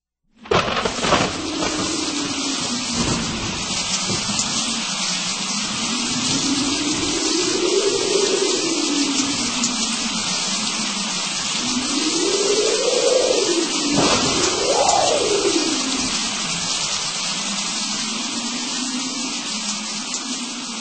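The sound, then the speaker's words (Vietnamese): Heavy pouring rain in a thunderstorm, a dense, loud, steady hiss that starts abruptly and holds evenly for about twenty seconds with no voices. “Đột nhiên, trên trời có tiếng sấm động và mưa bắt đầu trút xuống ào ào.”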